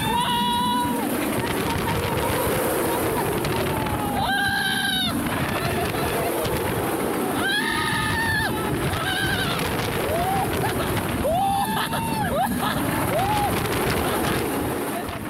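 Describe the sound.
Anaconda roller coaster ride at Gold Reef City: a loud, continuous rushing rumble with riders' repeated screams and shouts rising above it.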